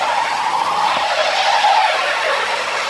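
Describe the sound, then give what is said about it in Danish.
A car skids and slides in snow on summer tyres, a loud, continuous rushing hiss of tyre noise that holds steady throughout without distinct separate events. “Der meget snart sidder i denne her situation. Med sommerdækkene snorende rundt i sneen.”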